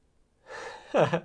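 A single sneeze: a breathy drawn-in gasp builds and then breaks into a short, louder voiced burst that fades quickly.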